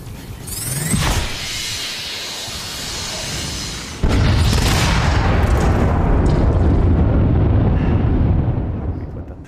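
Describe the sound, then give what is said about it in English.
Explosions from a super-weapon attack in an augmented-reality video game on a new iPhone: a sharp blast near the start, then a second heavy burst that swells into a loud, sustained rumbling roar and fades at the very end. “Now let's rain fire on our enemies, move closer to their base, and get ready for the fatal blow with our super weapon.”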